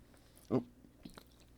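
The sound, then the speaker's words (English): A single thick gulp from swallowing a too-big sip of drink, short and fairly loud, followed by a couple of faint wet mouth clicks. “Ended up taking too big of a sip there. Almost died.”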